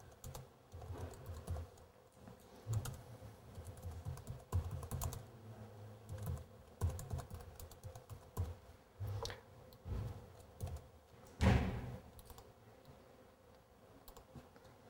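Fast typing on a computer keyboard while writing ASP.NET code, with many irregular bursts of crisp keystroke clicks and short pauses. One louder cluster of taps comes near the end, with no talking.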